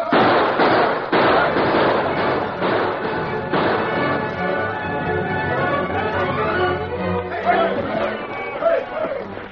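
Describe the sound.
Rifle gunfire in an ambush on a wagon train: many sharp, crackling shots in rapid, irregular bursts, with busy crowd-like noise and voices underneath.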